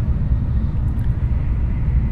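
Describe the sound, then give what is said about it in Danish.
Steady low rumble inside a Shinkansen high-speed train travelling between Tokyo and Kyoto at about 270 km/h, a dense, even roar with no clear separate events. “Vi er i et tog. Vi er i øh, Shinkansen, som kører øh, mellem Tokyo og øh, en masse andre byer, blandt andet Kyoto.”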